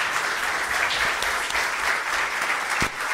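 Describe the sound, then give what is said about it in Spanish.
Steady, dense applause from a church audience welcoming first-time visitors, loud and continuous throughout with no talk over it. “Hay que darle un fuerte aplauso, claro, de bienvenida.”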